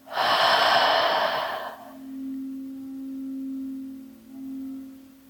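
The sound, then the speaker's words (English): A single loud, breathy rush of air from someone practicing guided breathing, in through the nose and out through the mouth. It is followed by a steady low hum that continues alone to the end. “Once more, inhale through the nose. Exhale through the mouth.”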